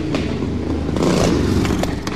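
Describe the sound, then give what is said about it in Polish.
The engine of a 1968 English MG car gives a steady, rough rumble with light clattering and a few brief scraping accents, staying fairly loud throughout. “To jest MG 68 rok, samochód angielski.”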